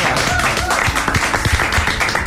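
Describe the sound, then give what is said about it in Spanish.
A studio audience at a radio station applauds to welcome a guest. The clapping is dense and loud, with sharp individual claps standing out in a steady burst. “Un aplauso, por favor.”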